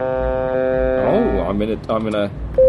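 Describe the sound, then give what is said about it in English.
A triangle wave tone from a small Arduino synthesizer plays as a steady, buzzy drone rich in harmonics. A voice then talks, and a short, purer, higher tone sounds near the end. “so that's a triangle wave,”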